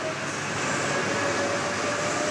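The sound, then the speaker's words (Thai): A Line 1 subway train runs overhead above wooden boards at an underground construction site for a new rail line. It makes a steady, even rumble with faint tonal whines over a broad hiss, holding level throughout. “ถ้างั้นด้านบนของแผ่นไม้ก็คือรถไฟใต้ดินสาย1ที่กำลังวิ่ง”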